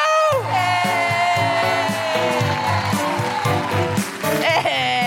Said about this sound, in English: So put your hands together. Make woohooing noises. Smash the patriarchy audibly and welcome the incredible Jessica Foster Q!